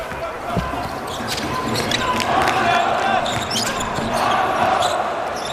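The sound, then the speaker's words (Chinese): Basketball dribbled past half court by a 2.03 m player in an international game against China's national team. Repeated, fairly loud bounces sound over a continuous wash of background noise. “拉多萨夫列维奇2米03的身高带球过半场啊，好防！”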